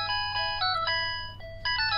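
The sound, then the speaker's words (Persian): A telephone rings with an electronic melodic ringtone: quick, bright tonal notes in a repeating pattern over a low steady hum. “تلفن ماست، اجازه بکنید یک دقیقه.”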